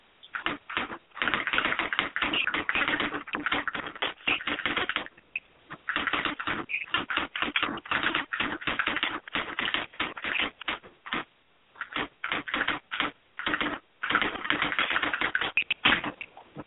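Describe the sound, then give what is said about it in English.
Rapid typing of a message, keys clattering in dense bursts broken by short pauses, with no talk. “let me type it out first.”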